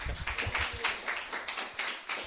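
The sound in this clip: Applause from a gathering after an announcement of good news, brisk, sharp hand claps in a pulsing, regular rhythm, many quick strikes close together.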